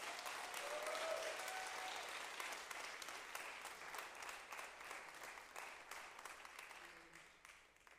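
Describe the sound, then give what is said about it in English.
Applause from a church audience on a Sunday morning welcoming a pastor to the pulpit: many hands clapping in a dense, steady wash that stays loud, then slowly eases toward the end. “So I want to ask us to put our hands together as we welcome Pastor Domenico Denisi.”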